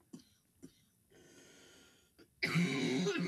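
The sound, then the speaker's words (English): A person coughs twice, two short sharp bursts close together, followed by a quieter stretch and then a louder, rough, sustained rush of breathy noise. “I kind of chuckled internally. Internally. And it triggered a cough.”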